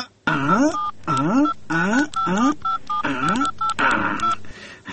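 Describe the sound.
Telephone keypad tones sound as a number is dialed: a run of short, steady beeps separated by brief gaps, with a voice talking over them throughout.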